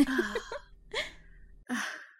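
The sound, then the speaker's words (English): Heavy breathing, heard as three separate breathy gasps split by short pauses. Each is fairly faint and carries a slight voiced tone. “Oh, you're still breathing a little heavy.”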